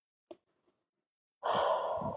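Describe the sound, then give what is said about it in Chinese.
One deep abdominal breath emerges after a quiet pause as a long, full, airy rush of air that holds steady to the end. “你可以有意的把你的注意力放到你的腹部。然后做几次深长的腹式呼吸，”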